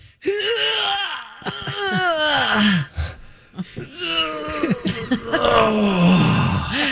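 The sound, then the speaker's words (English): Voices imitate cartoon stretch noises in two drawn-out, groaning vocal stretches, each wavering and then sliding down in pitch at its end. “Hammies, like a hammy stretch. Cartoon stretch noises. Okay, I'm just going to take those two stretch noises you guys just made.”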